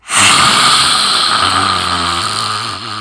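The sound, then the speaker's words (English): A forceful open-mouthed exhale with the tongue out during a breath of fire breathing exercise: one long, loud, breathy rush with a rough low growl underneath, easing off slowly toward the end. “Breath of fire, mouth wide open, tongue out, breathe it out.”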